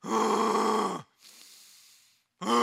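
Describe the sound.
A man's voice imitates laboured breathing from illness: a long, strained, groaning exhale, then a breathy rasping inhale, and a second voiced groan beginning at the end.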